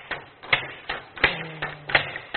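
Rhythmic mechanical striking from a single machine, one of 486 working together, repeating about seven evenly spaced sharp, clattering knocks with a faint low hum partway through.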